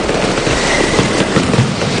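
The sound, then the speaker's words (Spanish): Fireworks from a large palmera fired by Pirotecnia Fernández at the Hogueras de Alicante, heard as dense, continuous crackling and rumbling, loud and steady throughout with no talk. “El cielo se vistió de chispas y el fuego se convirtió en el protagonista indiscutible. Al filo de la medianoche, la gran palmera que disparó la pirotecnia Fernández dio el”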